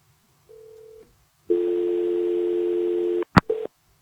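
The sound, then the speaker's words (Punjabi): Telephone tone after a call disconnects: a short, low tone, then a longer, louder buzzing tone, a sharp click and a brief final tone, with no voices. “ਹਾਂਜੀ, ਤੁਹਾਡੀ ਕਾਲ disconnect ਹੋ ਗਈ ਜੀ।”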